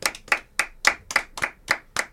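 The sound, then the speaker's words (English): Hand clapping in celebration: about eight sharp, evenly spaced claps at a brisk, steady pace, with no voices. “Do you want a round of applause? Please.”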